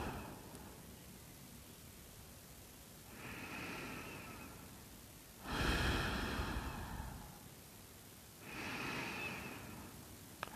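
Slow deep breaths drawn during a guided relaxation exercise with eyes closed: three long, soft, airy swells of breath, each lasting over a second and separated by quiet pauses, with no talk.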